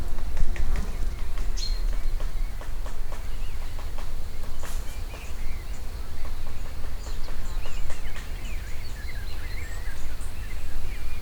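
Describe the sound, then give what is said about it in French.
Black woodpecker heard as many sharp, irregular taps with scattered faint bird chirps over a steady, noisy outdoor background. “Le pic noir, il s'amuse avec moi, quoi.”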